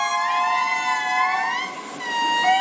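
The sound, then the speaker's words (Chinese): An indri lemur group song from Madagascar: loud, wailing, siren-like harmonic calls that slide in pitch and flow on without a break. “马达加斯加大狐猴的演唱可持续3分钟以上，不同小组的演唱时长和叫声结构各不相同，每个组都很好分辨。”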